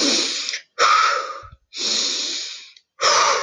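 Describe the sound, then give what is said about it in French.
Short, brisk breathing from a relaxation exercise: four forceful, breathy bursts of air separated by brief pauses, loud and alone with no talking. “En réactivant nos respirations, on va faire sur des inspirations courtes et des expirations courtes aussi et assez toniques.”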